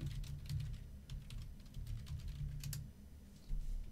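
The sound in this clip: Rapid typing on a computer keyboard: many quick, irregular keystroke clicks patter on without pause, with a few louder taps standing out from the steady run.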